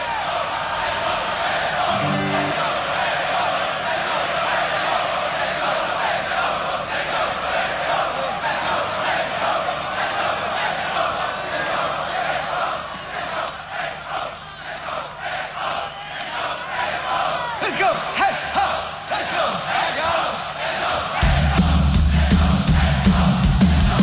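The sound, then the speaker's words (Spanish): A crowd at a rock concert cheers and applauds in a continuous, loud roar of mixed voices and clapping that holds steady through the whole stretch. “Está la gente aplaudiendo.”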